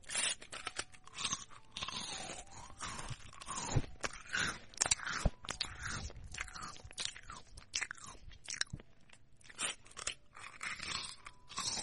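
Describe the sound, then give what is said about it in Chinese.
Crunchy biscuits being eaten: many loud, irregular crunching bites and crackling chews follow one another steadily throughout. “趁哥哥不注意，把他桌子上的饼干吃掉。”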